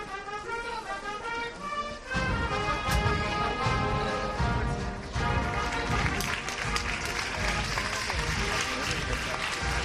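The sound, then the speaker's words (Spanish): Crowd applause in a packed Plaza del Duque as the bearers carry a Holy Week procession float forward for its first steps. Tonal sound and a voice come first, then dense clapping breaks out sharply after about two seconds and holds steady. “la cuadrilla que provoca los primeros pasos, los primeros aplausos”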